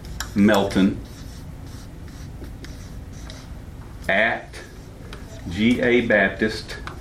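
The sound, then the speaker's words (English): A marker writes an email address on a board, its scratchy strokes running steadily beneath and between bursts of a man's talk. “I'm going to write her email up here.”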